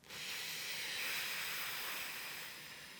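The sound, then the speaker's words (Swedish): A slow exhale through lips pressed lightly together to hold back the air, heard as a soft, steady hiss lasting about three seconds that fades slightly near the end, with no other sounds. “så kan man lägga ett litet motstånd med läpparna när man andas ut. Så att man liksom silar ut luften så det går lite långsammare.”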